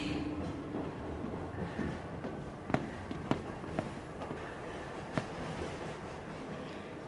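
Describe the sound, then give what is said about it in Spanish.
A metro train arriving in a tunnel: a faint, low, continuous rumble with a few sharp metallic clicks scattered across it. “¿Será mi imaginación? Clarito oí que venía el metro.”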